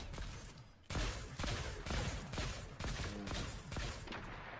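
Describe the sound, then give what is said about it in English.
Burst-fire gunshots ring out in a video game, many short, sharp volleys of cracks coming in quick succession, loud against a low background. “I like the one with the Iron Man thing. Yeah, the burst fire.”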